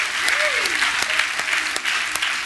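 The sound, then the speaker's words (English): A church audience applauds to congratulate people who have just said yes, a dense, steady roar of clapping with a brief whooping voice near the start. “Hey, can we congratulate those who just said yes? Let's give it up for them, family.”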